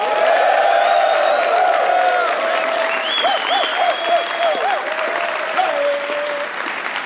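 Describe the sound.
A live studio audience at the Alpha Tau Omega National Convention in Orlando applauds loudly, with cheering and whooping voices riding above the sustained clapping, which stays strong for about seven seconds and eases slightly near the end.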